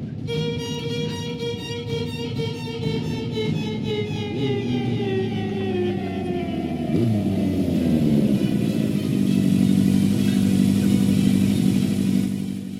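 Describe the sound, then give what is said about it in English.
A four-wheeler off-road vehicle's engine pulls up with a continuous buzzing drone, its pitch sliding down partway through as it slows, then settling into a steady, rough idle. “And Jeff pulls up on a four-wheeler now, because he has a lot of motorized off-road vehicles.”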